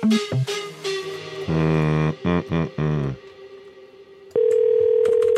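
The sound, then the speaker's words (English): Telephone tones: a series of short electronic beeps and buzzing bursts, followed by a loud, steady continuous tone that holds to the end. “oh, this one's ringing.”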